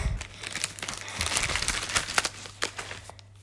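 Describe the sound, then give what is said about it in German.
Crinkly foil rustling as a Pokémon trading card pack is opened, with many quick, irregular crackles and crunches at moderate volume over a faint, steady low hum. “Wie versprochen kommt jetzt das Pokémon Opening. Äh, die Karten sind gerade angekommen.”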